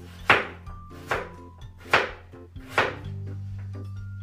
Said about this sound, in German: die Pastinake ein bisschen abschälen. Auch zerschneiden.